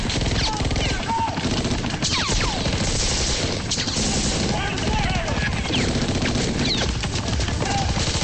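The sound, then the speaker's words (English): Gunfire is exchanged between a helicopter and men on a roof, dense rapid bursts and crashing impacts that fill the whole stretch at a steady loud level, with shouting voices mixed in. “Glass's helicopter flies near the roof. They start firing at each other.”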